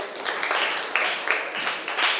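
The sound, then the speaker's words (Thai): Students in a criminal law class clapping for a classmate who answered correctly, a moderately loud patter of hands with a loose, rhythmic pulse of stronger claps. “ถูกต้องค่ะนักเรียนเก่งมากปรบมือให้เพื่อนหน่อย”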